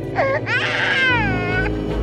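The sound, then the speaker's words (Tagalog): An infant crying from under a bed, a high, wavering wail: a short cry first, then a longer, drawn-out sobbing cry, with a low rumbling drone entering underneath partway through. “Nanggagaling ang iyak mula sa ilalim ng kama.”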